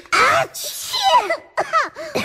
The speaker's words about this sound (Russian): Здесь так сильно пахло мятой, душицей, ромашкой и другими ароматными травами, что ребята дружно чихнули.